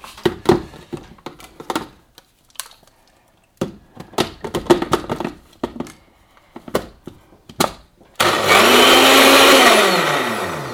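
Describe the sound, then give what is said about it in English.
A blender whips hot coffee into a frothy drink, its loud, steady motor roar starting after a run of sharp knocks and clatters. The motor tone sinks slightly toward the end. “I must blend this before it gets cold. Apologies in advance for the noise. There will be some, and I can't help it.”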